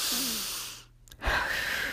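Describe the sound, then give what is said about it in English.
Deep breath taken slowly: soft, airy rushing that fades briefly midway and then returns stronger, hushed and without talk. “Take a deep breath”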